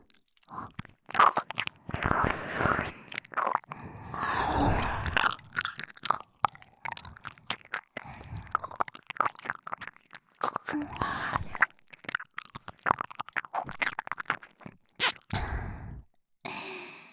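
Close-up ear-cleaning ASMR sounds: an irregular stream of crackling, scratching and rubbing noises with brief gaps, mostly soft with some sharper bursts.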